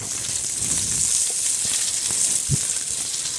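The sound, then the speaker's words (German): Steady sizzling of small orange pieces with peel caramelizing in a pan with about two teaspoons of sugar, a bright, constant frying hiss with a few soft stirring knocks. “Dann karamellisiere ich das mit etwas Zucker.”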